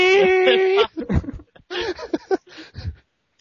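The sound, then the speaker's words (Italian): A child cries and whimpers: a drawn-out, steady, high whining wail, then several shorter broken sobbing bursts separated by brief pauses. “Sento un bambino.”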